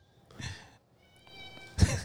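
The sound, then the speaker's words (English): A resident house cat meows in a few short, faint, nasal calls, with a sharper, louder burst near the end. “It's just our resident cat.”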